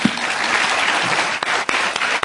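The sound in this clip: Applause thanking an author after a talk on his book about the Middle East: loud, dense clapping that holds steady, then thins and dips briefly in a few places near the end.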